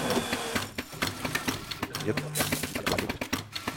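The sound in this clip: Rhythmic pulsing of an espresso machine's pump brewing a 35 ml shot at low temperature, with the grinder set one step finer than factory setting: a steady, fast mechanical ticking and buzzing that keeps a tight, even beat throughout.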